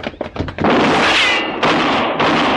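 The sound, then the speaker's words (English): A gunshot from a gunfighter in a 1950s western radio drama: a few quick clicks, then a loud blast that becomes a sustained roar of noise and briefly dips before surging again. “You shot at that man. You killed him.”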